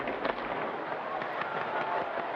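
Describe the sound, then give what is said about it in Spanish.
Fireworks going off during festive celebrations make a dense, continuous crackling roar, with a few sharper bursts standing out from the steady wash of noise. “Y comienzan en este instante los fuegos artificiales.”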